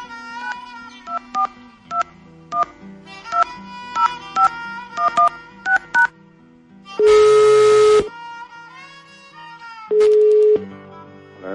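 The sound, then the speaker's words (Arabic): Telephone keypad tones as a call is placed: many short, evenly spaced beeps in a quick dialing rhythm, followed by two longer, louder ringback tones while the line connects. “نحاول نتصل به الآن وحتى تتحدثون سوا”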